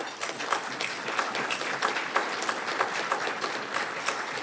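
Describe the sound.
Audience applause at a center's 30th anniversary banquet, congratulating the center: steady, dense clapping from many hands with a fairly even level throughout and no talk.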